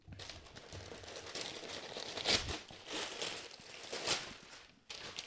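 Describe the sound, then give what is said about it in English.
Gift wrapping paper is ripped open, giving several quiet bursts of tearing and crinkling with a few louder rips between them. “you just ripped it. I mean, I ripped it. I didn't rip it. Bro, look at it. Look at it. You just ripped this.”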